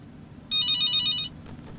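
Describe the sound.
Telephone ringing as a call is placed to a listener: one short burst of a bright, trilling electronic ring that pulses rapidly for under a second, then stops, leaving a low background hum.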